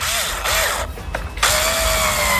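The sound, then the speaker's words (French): Electric screwdriver driving a screw: a steady, buzzing motor whine with a tonal hum, running in a few bursts separated by brief pauses. “C'est bien une visseuse électrique. Alors, on se disait, oui, c'est vrai, il y a des appareils qui servent à visser et à percer aussi. Mais là, elle était bien en train de visser. On va la réécouter, d'ailleurs, la visseuse.”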